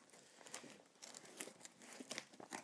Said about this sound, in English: try and find a way into this using the knife. Hopefully without causing any damage to me or the box.